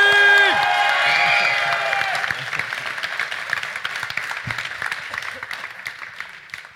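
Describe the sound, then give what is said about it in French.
Audience applause and cheering for an applause meter at a pitch competition erupt after a short musical sting, starting loud with clapping and whoops and then gradually thinning and fading toward the end. “Et maintenant, on va lancer l'applaudimètre dans 3, 2, 1, du bruit”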